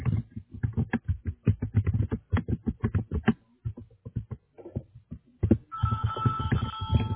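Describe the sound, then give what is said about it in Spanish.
Telephone ringing with an incoming call: a steady, buzzy ring fills the last second and a half, after a long run of rapid, even tapping and clicking sounds. “Dame un minuto para contestar esta llamada.”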